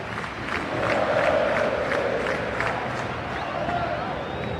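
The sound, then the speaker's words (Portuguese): Palmeiras supporters sing happy birthday in the stadium stands on the club's 112th anniversary. Many voices blend into a sustained chorus, and its sung phrases swell in a loose, repeating rhythm. “E o parabéns rolando agora nas arquibancadas.”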